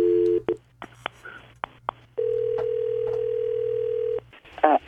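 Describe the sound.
A telephone ringback tone plays while a call is placed: a short double tone and several clicks, then one long, steady mid-pitched tone lasting about two seconds. A low, constant hum runs underneath, and a brief burst of other sound comes at the end.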